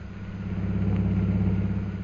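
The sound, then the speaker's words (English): A car's engine hums steadily as it drives through the streets of Shanghai, a radio-drama effect with a low, even mechanical drone and rumble that barely changes in level. “We now find Jungle Jim and Mr. Cooper driving through the streets of Shanghai on their way to the Jockey Club.”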